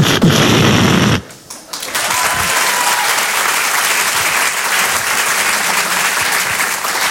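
A canned applause sound effect from a comedy act: after a brief, different loud burst, dense, steady clapping cuts in and carries on evenly at a strong level for about six seconds.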